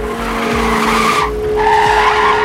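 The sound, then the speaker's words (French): Tires squeal as a car skids around a hairpin street corner: a loud, sustained screech with a steady tonal whine that runs through the whole clip, no voices. “Bono vire au coin de la rue de Cloix, qui fait une épingle à cheveux. Il redresse d'un coup de volant.”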